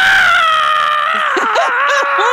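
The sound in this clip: A voice imitates someone screaming into a sideline reporter's earpiece during a televised basketball game: a loud, sustained, high-pitched wail whose pitch wavers and breaks into short yelps toward the end.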